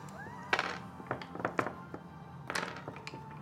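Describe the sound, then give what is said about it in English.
A die is rolled during a game, giving a few light wooden thunks and clicks as it tumbles and settles, with short bursts of clatter spaced unevenly. “Roll me a die, please.”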